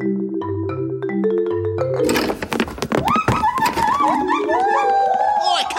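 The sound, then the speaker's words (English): Marimba notes in a stepped low pattern give way to a loud, chaotic burst of gibbon whoops and rising, wavering calls over clattering thumps, as a gang of gibbons makes off with a treasured marimba. “That's a gang of larcenous gibbons making off with someone's treasured marimba.”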